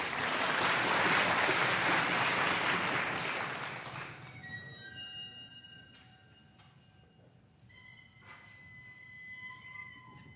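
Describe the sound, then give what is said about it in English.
A bowed waterphone, its metal tines of different lengths giving different notes, rings out in sustained, eerie high tones after a few seconds of audience applause fades away. “And what you're hearing are those spines, or the tines, they're of different lengths, so when you bow them, you get different notes,”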